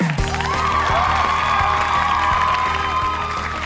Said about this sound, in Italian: Questo applauso, cari amici, è per voi